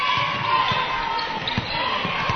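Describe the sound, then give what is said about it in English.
Basketball dribbled at a college basketball game: a few dull, low bounces thump at an uneven pace beneath steady crowd noise. “dribbling on the wing”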